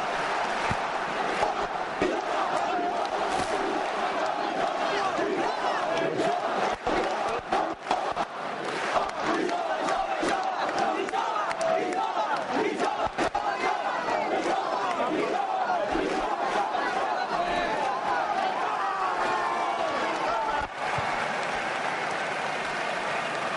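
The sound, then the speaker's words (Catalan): Castellers of the Colla Jove in Tarragona celebrate with a loud crowd roar of cheering and shouting voices, dense and continuous throughout, with clapping mixed in. “No sé si me sentiu aquí les celebracions. Ara sí? Vinga, va, sentim com celebren.”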